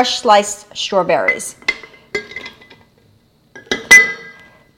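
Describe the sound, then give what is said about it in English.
Ice cubes and fresh sliced strawberries dropping and clinking into a blender jug for a smoothie, a few bright clattering impacts separated by brief pauses. “So I'm going to start with some ice because we want this drink to be cold. I'm going to add fresh sliced strawberries,”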